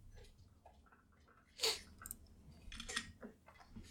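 Phone camera shutter clicks while photographing a microphone: a couple of short, sharp, faint clicks, the first the crispest, among soft handling rustle.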